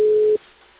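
A telephone busy signal gives one short, steady tone that cuts off abruptly, leaving faint line hiss.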